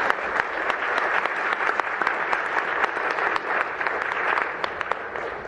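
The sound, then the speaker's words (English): Applause from a conference audience congratulating a person on asking a first question at an organic farming event: steady, dense clapping from many hands that holds an even level for the whole stretch. “could we have a little hand to congratulate someone on their first question at an organic conference?”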